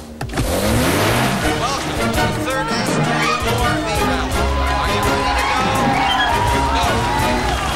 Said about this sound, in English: A man waves a flag and starts a huge four-wheel drive vehicle rally.